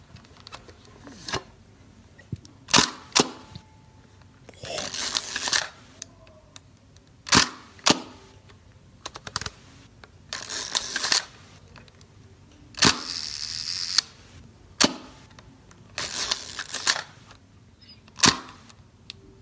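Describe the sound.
A large camera with a big mirror and cloth shutter fires again and again. Many sharp mechanical snaps are separated by quiet gaps, and several are followed by longer, loud rattling whirs.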